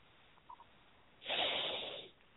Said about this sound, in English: Take a real deep breath in. Go, ha, and let that breath out.